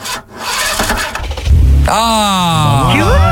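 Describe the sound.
An engine struggles to start, grinding and churning roughly for a couple of seconds. Voices with wavering tones then take over.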